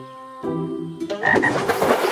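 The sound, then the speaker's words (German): Frogs croaking at a pond, first a few clear tonal croaks, then denser, raspier croaking that grows louder toward the end. “Und zurück zum Teich und den Fröschen.”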